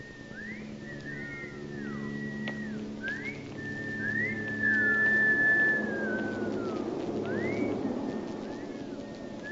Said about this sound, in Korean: 노마의 말이 끝나자 어린 시절의 아들딸들이 휘파람을 불며 모두 나타납니다.